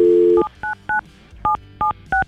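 Touch-tone telephone dialing as a number is keyed in: a steady dial tone cuts off, then five short, loud two-pitched beeps follow at uneven intervals.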